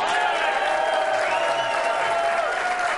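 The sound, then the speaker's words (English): Sustained applause and crowd noise from an audience welcoming Green Bay Packers head coach Mike McCarthy onto his show. The clapping is dense and steady at an even loudness throughout. “And, Mike, the ovations get louder every week.”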